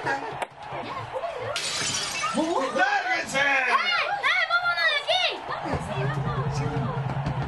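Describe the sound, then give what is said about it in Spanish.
Glass shattering as an old tape-wrapped ball smashes a second-floor window of a neighboring house in Newark, New Jersey: one brief, bright crash, followed by overlapping voices and soft chuckles. “Esa vieja pelota vendada con cinta emprendió una larga y elevada trayectoria que acabó con horrible exactitud en la ventana del segundo piso de una casa vecina.”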